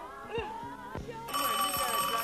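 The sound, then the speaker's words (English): A telephone rings in a comic exchange about answering the phone. The ring is fairly faint and steady, running continuously through the second half alongside other sounds. “get the phone. Answer the phone!”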